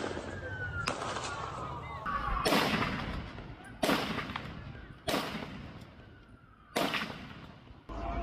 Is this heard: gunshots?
yes